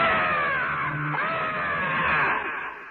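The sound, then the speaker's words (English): A creature's loud, piercing shriek from a reported Jersey Devil sighting: one continuous, harmonically rich wail lasting about three seconds. Its pitch wavers throughout and it fades slightly at the end. “And then all of a sudden, without any warning, this thing leaves out a shriek. It just goes,”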